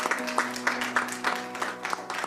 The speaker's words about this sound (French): On peut les applaudir.